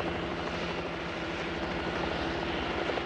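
A helicopter hovers in place, unable to land, while a rope ladder is lowered. Its engine drones steadily with a rapid, low rotor chop, continuous and fairly quiet, with no voices.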